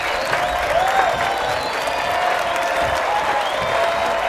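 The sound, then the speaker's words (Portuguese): A theatre audience applauds in a standing ovation for a stage troupe. The clapping is loud, dense and continuous, with an even, unbroken texture from start to finish. “A plateia aplaude de pé.”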